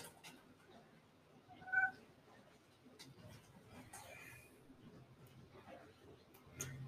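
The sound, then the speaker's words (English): A pet cat gives one short, faint meow partway through, otherwise surrounded by quiet rustling and low background noise. “My cat Sprinkles.”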